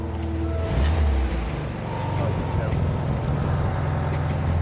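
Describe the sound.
A car engine runs steadily while the accelerator is pressed, with the battery warning light on and a possible charging fault. It makes a dense, loud low rumble under broad noise.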